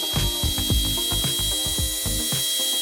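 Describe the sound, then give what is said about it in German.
A dentist's drill drilling teeth, giving a steady, piercing high whine over rapid, evenly spaced mechanical ticking that runs throughout. “Wirklich niemand, den ich kenne zumindest, ich auch nicht, geht gern zum Zahnarzt und lässt sich da an den Zähnen rumbohren.”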